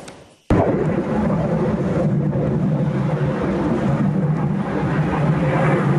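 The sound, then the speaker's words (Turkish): A loud F-16 fighter jet engine on a training flight in Yalova, a jet that crashed soon after takeoff, cuts in suddenly with a broad, heavy roar and holds steady, rumbling strongly throughout. “Yalova'da eğitim uçuşu yapan bir F-16 savaş uçağı kalkıştan kısa süre sonra düştü.”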